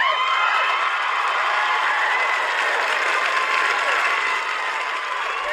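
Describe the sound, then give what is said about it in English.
Studio audience in a sports radio studio applauding and cheering wildly, a loud, dense, unbroken roar of clapping mixed with whoops that holds steady from start to finish. “On their feet and going wild. There, our in-studio audience, by the way.”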